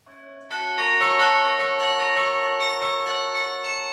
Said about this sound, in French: il est nécessaire de faire une pause musicale pour écouter la beauté, la précision, la rigueur du carillon, le carillon lyonnais